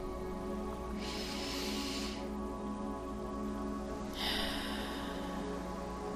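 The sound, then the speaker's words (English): A deep breath drawn in through the nose and then let out through the mouth: two soft, airy hisses separated by a short pause, heard over a steady sustained tonal background. “You can completely let go and take a deep breath in through your nose and out through your mouth.”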